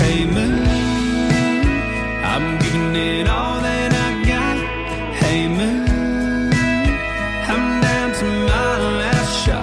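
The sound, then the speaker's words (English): New country music: a male voice sings over a full band with strong bass and steady drums, the singing continuous and prominent throughout. “New Country sounds like this.”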